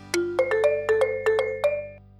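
A phone ringing while a call is placed: a quick run of short, bright electronic tones that hop between pitches like a ringtone melody. It is clear and alone, with no voices.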